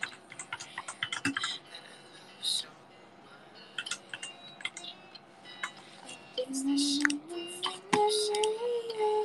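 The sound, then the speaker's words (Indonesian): Scattered clicks of typing on a computer keyboard, short sharp keystrokes in irregular bursts with brief pauses between them, at a fairly quiet level. “Oh, keyboard. Ada kok. Bentar, keyboard ini.”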